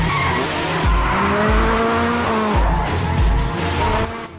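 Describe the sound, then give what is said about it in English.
Loud tire squeal and roaring engines as cars swerve, drift around concrete pillars and speed away in a large garage. The screech is continuous, with engine pitch surging and dropping several times before it eases off at the end. “Han swerves sharply to avoid T-boning Sean, then both cars zoom away”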